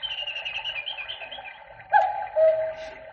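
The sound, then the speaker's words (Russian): A cuckoo clock calls the hour with steady tonal hooting notes, joined near the end by two louder, clearer calls. “Вот кукушка кукует часы.”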